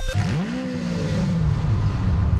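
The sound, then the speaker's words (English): A short radio show sounder built from an engine revving, with a pitched motor tone that climbs quickly, levels off and then sags slightly, loud and alone without talk. “And that was the sounder for Chuck.”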